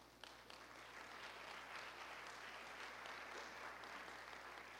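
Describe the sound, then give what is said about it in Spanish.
A church audience applauds, a soft but dense, even patter of many hands clapping that holds steady after a brief quieter start. “Démosle un aplauso al Señor por la vida de estos hermanos”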